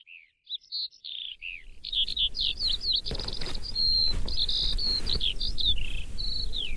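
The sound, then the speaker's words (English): A skylark sings a high, continuous warbling song of rapid trills and chirps. It begins with a few short calls, then flows unbroken over a steady low rumble. “Can you hear the most beautiful sound of a skylark? I think that's the most beautiful sound in the world.”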